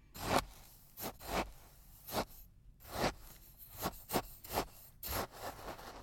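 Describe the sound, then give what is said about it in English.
A spade digging in playground sand makes a steady series of soft, gritty scrapes, repeating in an irregular rhythm at low volume with no voices. “It's a spade digging in the sand. Digging in the sand and making sandcastles sounds great.”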